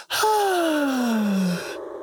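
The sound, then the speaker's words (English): A guitar shaped to sound like a sigh, with a voice imitating it, sounds as one smooth, tonal glide that falls slowly in pitch over about one and a half seconds, then tails off into quiet noise. “The first thing I loved were the sighs in the beginning. Those sighs. It's actually a guitar and it made it sound like that.”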